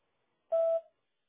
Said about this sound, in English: please leave a detailed message at the tone, and we'll be sure to get back to you as soon as possible.